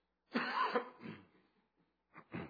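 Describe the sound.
Coughing from something caught in the throat: a rasping, throaty bout of several harsh coughs, then two short coughs after a brief pause. No talk is heard.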